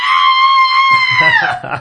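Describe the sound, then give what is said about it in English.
A high-pitched human scream holds steady and shrill for over a second, then wavers and drops in pitch near the end as rougher, lower noise enters. “And then you just start screaming in your high-pitched scream.”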